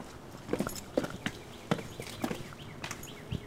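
Footsteps going down stairs at an old fort, a run of irregular, moderately loud scuffing steps with uneven spacing and no voices.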